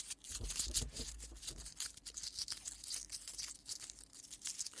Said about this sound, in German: ich pack's mal wieder hier aus, ASMR-mäßig